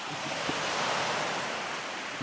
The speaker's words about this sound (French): Ok, je vais m'emmener au bord de l'eau.